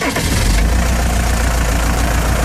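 Diesel engine running after glow-plug preheating, with a loud, steady, low rumble that holds an even idle throughout.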